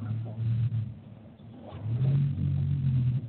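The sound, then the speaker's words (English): A car engine revs as the car is moved, making a low, throaty rumble that swells twice in long bursts, with a brief dip between them. “Who got all the background noise, though? I'm going to need that background noise, though. Sounds like somebody moving the car or something.”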